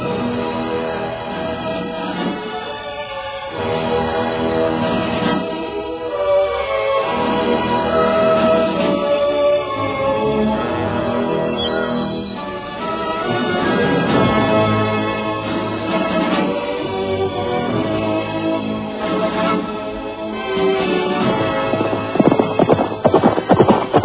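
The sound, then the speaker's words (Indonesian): A horse gallops fast, its rapid, steady hoofbeats drumming loudly and continuously for the whole stretch as it charges through a line of riders. “Tangannya kemudian bergerak menyentakkan tali kekang kudanya. Nila Ambara melompat tinggi. Dan sebentar kemudian, kuda itu pun sudah berlari kencang menerobos barisan.”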